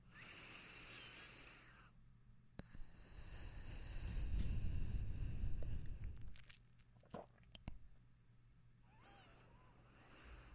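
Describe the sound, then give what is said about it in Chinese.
Gentle breathing through the nose during a relaxation exercise, one long, soft exhale that swells and fades in the middle, very faint, with a few tiny clicks around it. “闭上你的眼睛，用鼻子轻轻的呼吸，像我这样”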